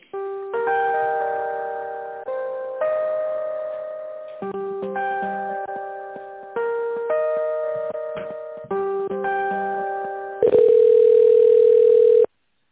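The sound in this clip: Electronic telephone tones sound while a call is connected: a repeating melodic sequence of steady beeps, then a single long, louder sustained tone at the end.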